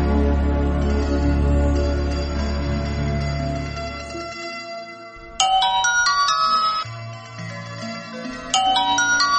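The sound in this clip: A telephone rings for a studio call-in with a loud electronic ringtone, its repeating high, melodic beeping bursts sounding alone and returning after a short pause.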